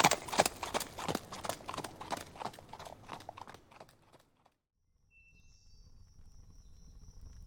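A trotting horse pulls a carriage, its hooves clip-clopping in a quick, regular rhythm that fades away after about four seconds, leaving near silence with a faint low hum.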